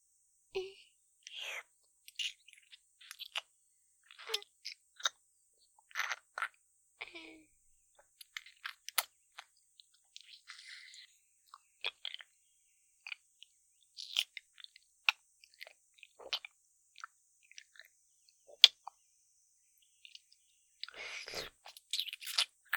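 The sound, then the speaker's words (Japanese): A mandarin orange being chewed, heard as many soft, wet, crunchy bites and mouth clicks at irregular intervals, faint and close, with quiet gaps between them. “口移しされながら食べるみかん。おいしいですか？それならもう一個食べさせてあげる。”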